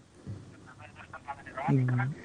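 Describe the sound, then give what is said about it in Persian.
A caller's radio plays in the background of a phone-in call, heard as thin, muffled voices and tones over the telephone line. The sound is fairly quiet, and speech dominates throughout. “صدای رادیویتان اگر کم پایین بکنین بعد صحبت بکنین.”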